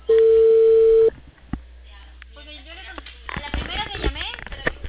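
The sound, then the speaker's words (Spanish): A telephone call goes unanswered. A single loud, flat ring tone holds for about a second and then stops, and a person starts talking. “A la primera que llamé me contestó, pero ahorita ya no contesta. Estoy llamando de la central.”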